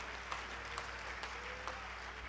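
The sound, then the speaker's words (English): Congregation clapping hands at a church service, a faint, continuous wash of applause with occasional sharper individual claps standing out in an irregular rhythm, no clear speech. “Clap your hands if you're going to pray with me and help me.”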